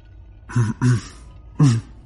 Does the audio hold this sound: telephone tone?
no

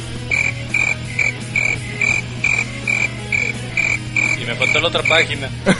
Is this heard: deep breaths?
no

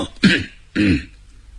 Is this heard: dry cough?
yes

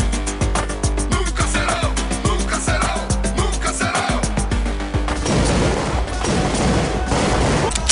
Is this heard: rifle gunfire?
yes

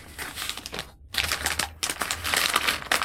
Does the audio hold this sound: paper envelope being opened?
yes

